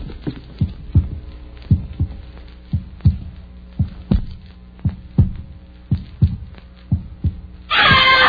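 A heartbeat heard through a stethoscope gives many muffled, regular low thumps at a steady, slightly quick pace over a faint hum, ending in a sudden burst of rustling noise.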